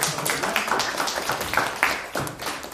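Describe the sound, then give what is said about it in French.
Audience applause: a dense, fairly loud wash of many hands clapping steadily and without a break. “On l'applaudit, s'il vous”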